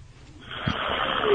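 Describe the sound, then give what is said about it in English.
A man snoring while asleep on a phone call, one rough, breathy snore coming through the line, starting quietly and swelling louder toward the end. “Is that snore? Shh. Wait. Is he asleep? I think he's sleeping.”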